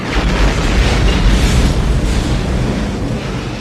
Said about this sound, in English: Look how it just blew into parts. He shot it twice and it just exploded in like a million pieces.